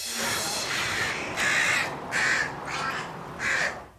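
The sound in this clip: Crows cawing during dive-bombing season, a few harsh, raspy caws in separate bursts over a steady background hiss.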